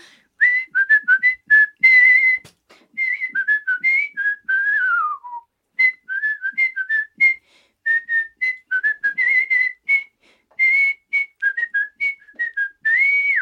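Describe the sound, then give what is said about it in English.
A person whistles a song's vocal melody in clear, high, bright phrases of short notes separated by brief pauses, with one long downward glide partway through. “any vocal things that I'm able to do, I'm able to replicate it with my whistle”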